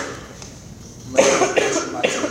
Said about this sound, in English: Stop coughing.